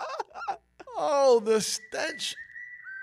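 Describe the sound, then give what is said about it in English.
Whistle sound effect, a clear high whistle that holds steady for under a second and dips slightly at the end, coming right after a burst of voices and giggling. “You did put the whistle, right?”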